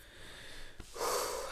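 Heavy breathing: a loud, breathy rush of air that swells and holds through the second half, following a brief snort-like burst, with no voices.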